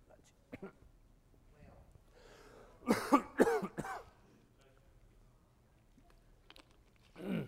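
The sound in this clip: Coughing from a preacher who choked mid-sermon: a short cluster of a few loud, harsh coughs with throat clearing, set between stretches of quieter breathing and faint background noise.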